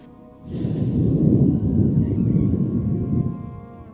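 A forceful exhale, breath blown out during a meditation breathing exercise after contracting the base of the spine: a loud, rushing breath that starts abruptly, holds steady for about three seconds and then fades, with no talk.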